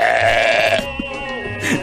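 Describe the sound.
A sheep bleat is played as a comic reply from a ram: a loud, drawn-out, wavering call that breaks off and gives way to softer, rougher grunting sounds.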